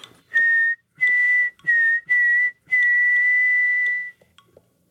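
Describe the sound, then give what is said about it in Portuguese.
Clear whistling that resembles the word 'saci', a run of five steady notes at the same high pitch separated by short gaps, the last held noticeably longer than the others, alone without talk. “Uma, o assovio parece simplesmente Saci, que é... E outro, que é o completo, né? Que o assovio parece a onomatopeia de Saci Pererê, ou as suas variações”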